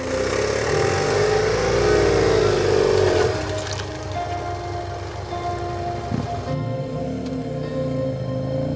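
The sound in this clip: A motorcycle engine revs hard as the rider is urged to give it a lot of gas after the bike is straightened. The loud, rough drone eases slightly after about three seconds and then holds steady.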